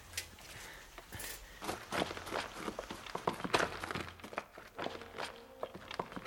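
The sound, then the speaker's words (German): Footsteps walk into a cave in a radio drama, many irregular crunching steps at a steady walking pace that keep going throughout, fairly quiet and without talk. “Ich gehe in die Höhle. Warte, ich komme mit.”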